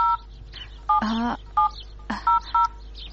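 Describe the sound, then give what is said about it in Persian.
A telephone number is dialed on a keypad, giving several short dual-tone beeps at irregular intervals. Two louder, buzzier tones break in between them. “تو صبرم، یال به فاطمه زنگ میزنم”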